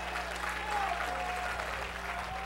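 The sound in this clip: Congregation clapping hands during a church service: a steady, dense patter of many hands applauding together, faint and even throughout without breaks.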